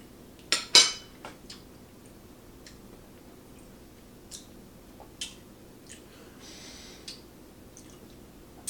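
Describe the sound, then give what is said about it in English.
A spoon clinks and scrapes while scooping a big spoonful of pineapple habanero hot sauce for a taste test: two sharp clicks close together near the start, then a scattering of faint, isolated ticks over quiet hiss. “So the pineapple habanero, I have a feeling it's gonna be more on the sweet side. But here we go, let's give it a taste test. Got a spoonful of it, a big spoonful of it.”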